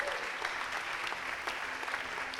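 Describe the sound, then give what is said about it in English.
Audience applause during a sermon, dense and even clapping that fills the whole stretch at a low level, with no voices on top. “Hey, you are not clapping for Jesus.”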